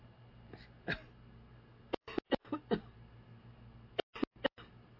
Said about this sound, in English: excuse me, I choked on the water